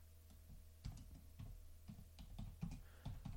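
Typing on a computer keyboard as a message is entered, heard as a run of irregular, moderately loud key clicks over a low steady hum, with no voices.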